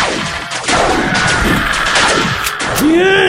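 Cartoon gunfire sound effect from an animated shootout: a loud, dense, continuous barrage of rapid shots and crashes with no break, ending in a rising whine.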